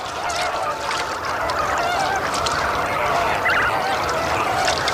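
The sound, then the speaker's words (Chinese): Honking calls of a greater flamingo colony as parents call to find their chicks: many loud, overlapping goose-like honks forming a dense, continuous din with no pauses. “远远看去，这群幼鸟几乎没有任何区别。好在每只亲鸟都能发出独特的叫声。”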